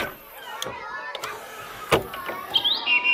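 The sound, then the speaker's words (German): Blackbird song played from a CD of bird calls, with varied whistled phrases and a few brighter, higher notes near the end. “So schön singt die Amsel.”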